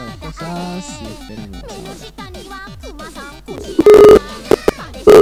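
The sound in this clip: A telephone ringing tone while a call is being placed: a few loud, steady electronic tone bursts cut in near the end, after a stretch of voice.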